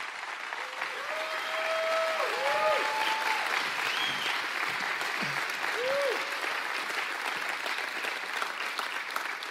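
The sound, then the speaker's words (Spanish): Audience applause welcoming a guest speaker at a church service: steady, sustained clapping from a crowd, fairly soft, with a few voices calling out over it. “Entonces vamos abriendo nuestros corazones y recibiéndoles el día de hoy con un fuerte aplauso a Larry Walkemeyer.”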